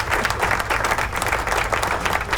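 Applause closing a Mother's Day program, a continuous, dense patter of clapping that stays fairly loud and even throughout, with no voices over it.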